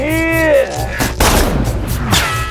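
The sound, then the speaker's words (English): Gunshots fired during a film shootout, heard as a few sharp, loud bursts mixed with a voice and other scene sounds. “Baines fires more shots.”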